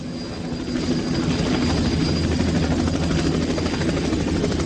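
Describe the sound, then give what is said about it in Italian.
A helicopter flies overhead, giving a loud, steady drone with a low, throbbing rotor beat that holds for the whole stretch. No one speaks over it. “Belli sti elicotteri.”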